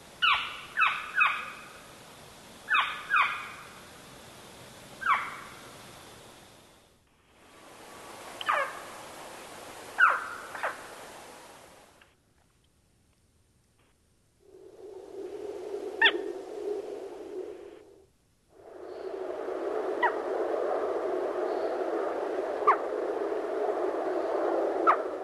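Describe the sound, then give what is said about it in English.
A northern saw-whet owl calls, giving its fall calls and then its winter calls. It opens with a few clusters of short, high, whistled notes separated by pauses, then shifts to a harsher, noisy, sustained sound with faint sharp ticks. “And here is the northern saw-whet. We have first the fall vocalization, then followed by the winter vocalization.”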